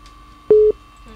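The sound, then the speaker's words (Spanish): A single short telephone busy tone after a call drops on a phone-in line. One steady mid-pitched beep lasts about a fifth of a second, alone against a faint background hum. “se nos fue la llamada ahí con la señora”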